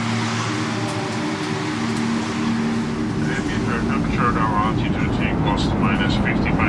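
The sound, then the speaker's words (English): An airplane's engines drone in the airspace over Hungary, a steady, unbroken roar with a low hum that holds throughout, while voices talk over it during the second half. “Sound listener from Tatabanya, Hungary playing nearby sound. Airspace over Hungary.”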